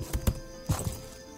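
Footsteps approach a tent: four soft, low thuds land in two quick pairs over a faint steady hiss.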